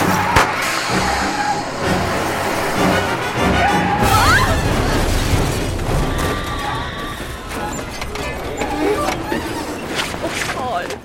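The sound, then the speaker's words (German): A car crash: sustained loud crunching and smashing impacts with rumbling engine noise, filling the whole eleven seconds without a pause. “Was für ein furchtbarer Unfall.”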